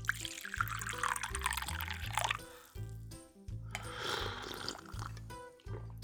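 Kenyan coffee is poured into a cup, a quiet, continuous liquid stream with splashing and a few brief pauses in the flow.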